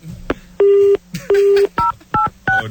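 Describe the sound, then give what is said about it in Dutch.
Telephone keypad tones sound during a call transfer: five dual-tone beeps, the first two longer and the last three short, over a low steady hum. “Ik zet u even door met... Uncle Jimmy. Daar gaat hij weer.”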